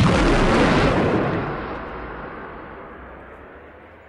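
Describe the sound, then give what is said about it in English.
A loud explosion-like burst forms the sound logo of the video game GMA Tank Commander. It strikes hard at once and then rumbles away, fading slowly over about four seconds. “And now we are at a sound logo where it sort of introduces the game. It sort of gives it its attention touch. GMA Tank Commander!”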